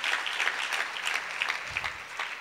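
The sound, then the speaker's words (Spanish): Church audience clapping, a brisk patter of many hands that stays soft and steady for the whole span. “Démosle un aplauso al Señor.”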